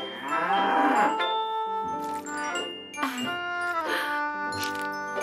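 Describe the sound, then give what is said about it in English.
A cow moos while being milked, giving a few long, low, droning moos in succession that fill the whole stretch. “I'm milking the cow!”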